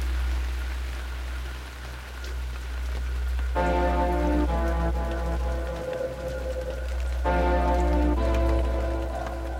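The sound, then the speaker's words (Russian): Rain drips fall from a wagon roof just after a downpour, a steady patter of drops with denser runs, under a strong low hum. Sustained musical tones enter partway through. “Дождь перестал. Только с крыши повозки срываются отдельные капли, иногда целые потоки капель.”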